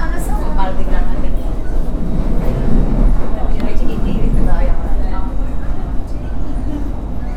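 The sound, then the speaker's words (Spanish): A Mitre line commuter train runs from José León Suárez toward Retiro, heard while leaning against the door. A loud, steady low drone mixes with rattling and clatter throughout. “Viajo en el tren Mitre. Vengo de José León Suárez y voy a Retiro.”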